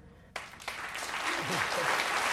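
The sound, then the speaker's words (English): Applause from an audience in a lecture hall bursts in suddenly after a brief hush, swelling into dense, steady clapping that grows slightly louder and continues to the end. “as the attendees applaud around him”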